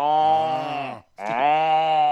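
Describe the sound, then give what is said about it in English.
A human voice imitates a cow lowing with two long, drawn-out moaning tones of steady pitch, separated by a brief pause. Each note is loud and sustained, with no other sound. “a cow laws. L-A-W-S. It laws. Yeah, it goes like that, doesn't it?”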